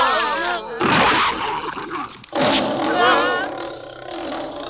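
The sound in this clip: A lion character in an animated film roars, with two long, loud, rough bursts that carry wavering voiced tones, like a voice actor's growl. A softer cry comes before them.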